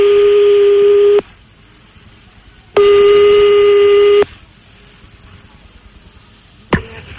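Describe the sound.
Telephone line tones sound while a caller redials a number to call someone back. Two long, steady, loud tones are separated by a quiet gap, and a short sharp click follows near the end.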